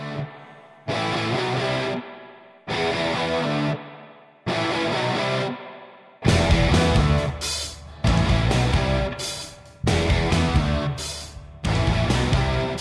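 A distorted electric guitar riff opens a rock song, played as short repeated bursts separated by gaps. A fuller, louder band then joins and repeats the phrase several more times.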